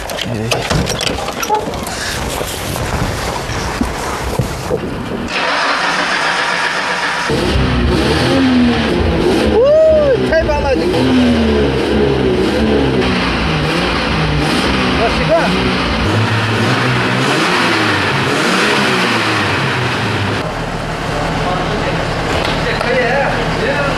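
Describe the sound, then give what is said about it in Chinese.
Car engine revving with the throttle pressed, on a vehicle used for desert dune driving. A loud, rough engine roar swells and climbs in pitch through repeated revs, with people talking over it throughout. “我能不能上去塞一塞油门， 发动 一下声音？ 发动，发动。”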